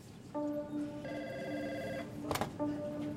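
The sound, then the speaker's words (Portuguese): A telephone rings with an incoming call in a few faint, steady electronic bursts. A brief sharp click falls between the last two rings. “Jorge Rodrigues Marx, recebe a ligação de um dos lobistas da empresa.”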